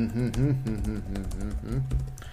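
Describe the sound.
Typing on a computer keyboard: many quick, irregular key clicks under someone talking.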